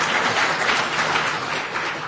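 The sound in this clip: Audience applause at the close of a talk before questions begin, a steady, dense wash of clapping that holds for about two seconds.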